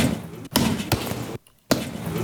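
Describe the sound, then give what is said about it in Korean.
Boxing gloves punching a sandbag: a few heavy, dull thuds over loud continuous noise, with a brief silent gap before the last blow. “연희는 그날 속이 풀릴 때까지 계속 샌드백을 쳤다.”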